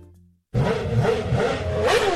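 Motorcycle engine revving as the rider twists the throttle: after a brief low hum, a loud buzzing roar kicks in abruptly and holds, its pitch wavering up and down as the engine surges.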